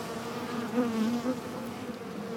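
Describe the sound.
Honeybees buzz around a hive in a steady, dense hum that swells slightly near the middle, with no voices over it.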